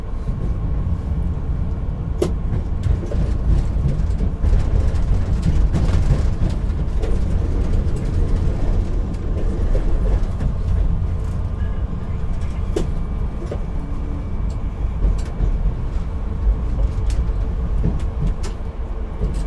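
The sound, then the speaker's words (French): Steady low rumble of an empty train running on rails, heard from the driver's side, a constant heavy drone with occasional faint clicks and no passengers' voices. “Me voilà maintenant dans un train vide.”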